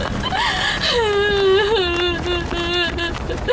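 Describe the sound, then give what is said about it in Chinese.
A person cries in a long, wavering wail, the voice gliding down and then holding a trembling note over a steady rushing noise. “你再哭你哭不过来啊，别哭了啊。”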